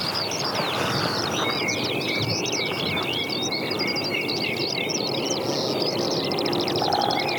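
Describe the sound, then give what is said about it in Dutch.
Great spotted woodpecker calls within a dense chorus of birdsong, short sharp high notes repeating among many overlapping chirps and trills, steady and unbroken for about seven seconds. “Grote bonte specht.”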